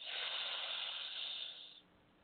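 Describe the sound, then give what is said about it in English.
A single long, deep breath makes a steady airy hiss that holds evenly and then fades out near the end, with no talking. “Let's breathe. Inhale, exhale. Inhale.”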